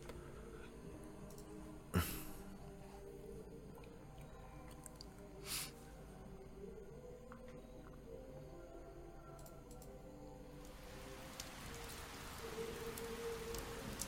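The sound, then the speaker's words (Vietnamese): Heavy rain pours onto an old, crumbling tiled roof, sending up constant splashes of water. It makes a steady, faint hiss of falling drops, broken by a couple of brief louder splats, with no voices. “Mưa to trút xuống đánh lên mái ngói cũ nát khiến bọt nước bắn ra liên tục.”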